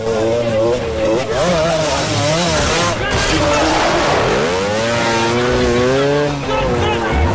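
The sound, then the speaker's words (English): Revving engine of a scrambler motorcycle in a chase with police cars, a wavering whine that climbs and drops again and again beneath ongoing talk. “Bourne gives chase on a scrambler with the police on his tail. He comes face to face with a police car coming in the other direction, flips the bike around, and vaults the machine up a 6-foot wall.”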